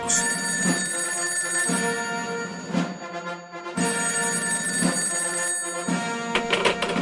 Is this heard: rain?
no

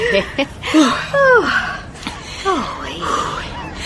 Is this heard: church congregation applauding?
no

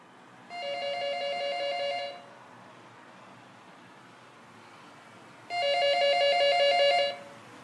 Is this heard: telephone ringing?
yes

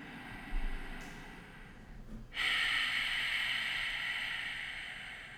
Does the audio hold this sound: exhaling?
yes

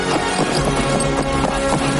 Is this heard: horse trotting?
yes

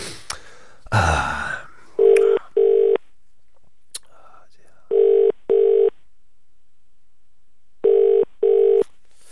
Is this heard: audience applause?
no

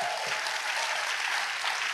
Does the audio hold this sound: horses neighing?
no

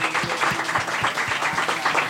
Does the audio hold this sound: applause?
yes

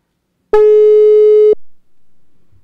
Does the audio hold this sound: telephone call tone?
yes

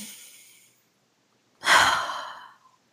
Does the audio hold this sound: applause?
no

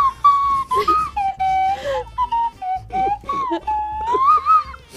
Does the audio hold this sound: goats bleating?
no

